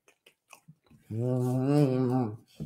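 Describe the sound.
Someone chews bread with a peanut butter cream filling, making a few faint, scattered bites and chewing clicks. A long, sustained hummed voice rises over the chewing before it quiets.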